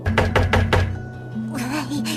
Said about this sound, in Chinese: 他来到蚂蚁家，敲敲门